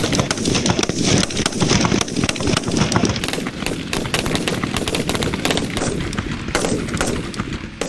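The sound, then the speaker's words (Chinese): Rifle gunfire at a shooting range during a marksman unit's rifle qualification: many loud shots in rapid, overlapping succession form a dense, continuous barrage for the whole stretch. “开始射击。”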